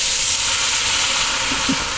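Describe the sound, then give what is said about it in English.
Red wine poured in to deglaze a hot casserole pan holding meat and mirepoix sends up a loud, steady sizzling hiss, with a few small bubbling pops near the end. “Deglaze the pan. Yes. Bring it to the boil. Just be careful it doesn't, it may catch on fire, so make sure that it doesn't ignite.”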